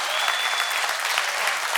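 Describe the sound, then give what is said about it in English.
Dense, steady applause from a church audience during a worship service, holding at an even level for the whole stretch, with some voices mixed into the clapping. “Give the Lord a shout and a clap offering.”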